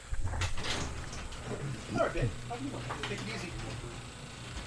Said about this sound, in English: So that noise... That noise is the garage door opening.